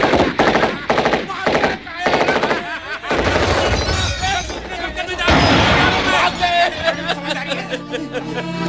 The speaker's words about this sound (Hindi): बाना सिंह कभी इस मोर्चे पर दौड़ते तो कभी उस पर, स्टैन गन से गोलियों की बौछार करते हुए, कभी संगीन घोपते हुए तो कहीं ग्रेनेड फेंकते हुए दुश्मनों पर वो कहर बरपा रहे थे।